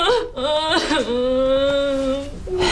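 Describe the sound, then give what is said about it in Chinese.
A person cries in a loud, wavering wail, one sustained high-pitched sob lasting about two seconds with a sliding pitch, heard alone without talk. “行了，别哭了。哭也解决不了问题呀”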